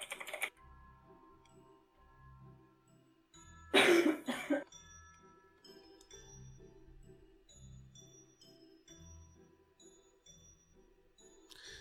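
Computer keyboard typing as a message is written: many light, scattered key clicks at an irregular pace, broken early by a single loud, cough-like burst, then soft tapping continuing to the end.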